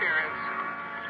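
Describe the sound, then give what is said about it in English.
Police radio crackling with interference in a car, a steady hissing, band-limited static carrying faint tonal whines, fairly loud and unbroken for about a second with no clear words. “We listened to the calls coming on the radio, and we waited.”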